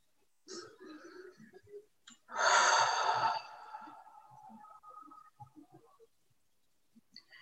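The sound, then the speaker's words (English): A single deep, loud breath rushes out in a breathy burst lasting about a second during a guided breathing exercise, with quieter faint vocal sounds before and after it. “One more deep breath.”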